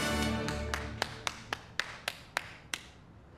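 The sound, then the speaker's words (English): A single person claps alone in a brisk run of crisp, evenly spaced claps that slow a little toward the end over a fading background. “As the boy steps back in place among the kids, Nate bursts into applause.”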